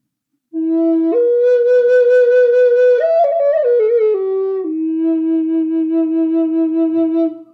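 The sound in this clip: A flute with its block moved back plays with a sharper, clearer tone. A short melodic phrase climbs through a few notes, then steps down and settles on a long, low held note with a gentle waver. No voices are heard.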